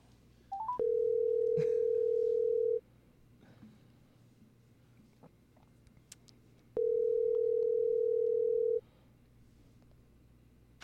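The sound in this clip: A telephone tone sounds while a call is placed: two long, steady, mid-pitched tone bursts, each about two seconds, separated by a few seconds of quiet line hiss.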